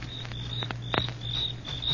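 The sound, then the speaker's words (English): Crickets chirp in thick grass after dark, a steady high-pitched trilling that pulses continuously throughout, fairly loud with no voices. “You hear that? Yeah, sure. Just crickets, though.”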